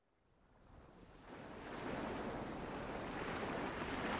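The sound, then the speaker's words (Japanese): Small waves lapping onto a little beach: a soft, hissing wash of water that swells over the first couple of seconds and then holds as a steady rushing surf, with no voices. “小さな浜辺に、さざ波が寄せては返している。”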